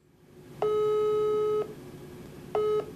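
Telephone line tones play on a call that nobody answers: a steady beep holds for about a second, and a second identical tone starts just before the end and is cut off, over a low background hum.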